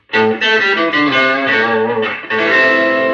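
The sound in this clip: Electric guitar on its neck pickup played through a Harvard Reverb amplifier: a few loud, sustained, distorted chords ringing one after another with a nasal tone.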